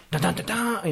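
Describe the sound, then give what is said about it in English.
A man voices a loud Firefox web browser new-window sound with a few short, punchy syllables, then briefly speaks. “My Firefox. That was every time you opened up a new window, it was like...”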